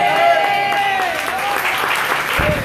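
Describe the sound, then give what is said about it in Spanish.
A church audience applauding during a service, steady dense clapping that holds at an even loudness for a few seconds. “aplaude, aplaude con alegría.”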